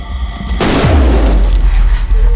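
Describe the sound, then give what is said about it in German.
A handgun fires a single loud gunshot, a sharp crack that breaks in abruptly and trails into a deep, rumbling boom that lingers to the end. “Die Waffe ging los.”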